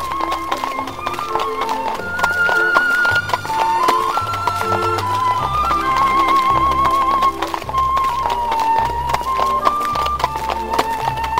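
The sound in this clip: Steady clip-clopping hooves of a horse pulling Matthew's carriage away on a clear September morning, with a wavering melody running above the rhythmic knocking.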